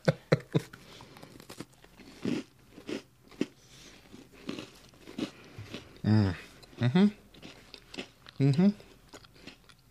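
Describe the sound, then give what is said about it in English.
Crunchy bites and chewing of a Girl Scout graham cracker cookie layered with chocolate and marshmallow. Soft intermittent munching is broken by several louder crisp crunches, with short murmured vocal sounds in between. “The graham cracker cookie. They're very nicely designed, too. Ready? And, I just want to eat a cookie.”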